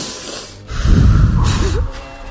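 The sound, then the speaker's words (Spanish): A deep breath is drawn in, one long noisy inhalation lasting over a second, loud and airy with a slightly snorting, nasal edge, heard alone with no talk. “Respiramos hondo”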